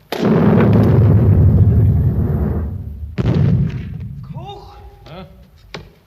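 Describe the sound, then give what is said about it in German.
Artillery gunfire booming in a town during fighting: a long, heavy rumbling blast, then a second boom after a pause, followed by quieter tonal sounds and a short sharp crack near the end. “Seit 3 Stunden schießen's schon wieder.”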